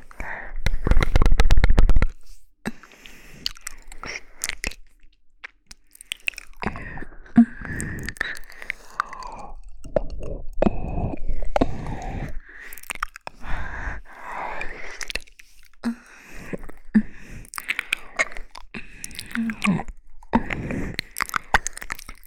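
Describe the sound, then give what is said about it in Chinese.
ASMR mouth sounds of pretend eating of ears: many wet clicks, smacks and crunchy bites in an irregular stream, with a loud burst of crackling near the start. “我宝贝的耳朵，真好吃。”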